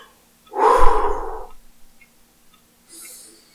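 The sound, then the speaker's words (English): One deep breath is drawn in, a loud, airy rush lasting about a second. After a pause comes a faint, brief breathy sound. No talking. “All right, hold on, deep breath.”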